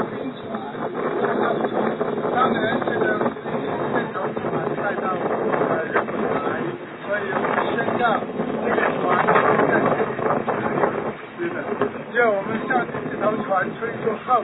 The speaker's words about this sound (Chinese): 风很大。